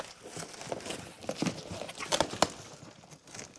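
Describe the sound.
A cardboard box is opened with faint crinkling, scraping and tearing, coming as a few irregular bursts of rustle and sharper rips.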